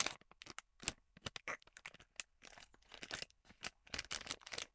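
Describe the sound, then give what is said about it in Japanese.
Crinkly crackling and tearing as a pistachio is opened, a rapid run of many short, sharp bursts of varying loudness, with no talk. “ピスタチオ1個いけます。開封の儀。”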